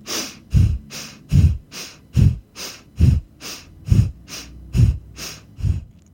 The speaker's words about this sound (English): Preparing to begin, inhale deeply, then exhale.